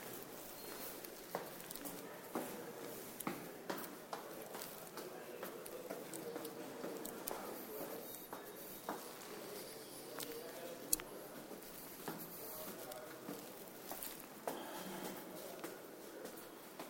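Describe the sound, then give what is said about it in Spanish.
Footsteps going down a staircase, many light, irregular taps and scuffs over a soft rustling background, quiet throughout with a few sharper knocks standing out. “Chao, cuelgo. Me voy por las escaleras y se va a cortar.”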